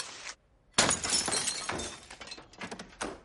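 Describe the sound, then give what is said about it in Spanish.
Glass smashing as a stone breaks the pane of a house door: a sudden loud crash followed by a scatter of smaller clinks and debris rattling over the next two seconds. “rompe el cristal de la puerta de una casa con una piedra”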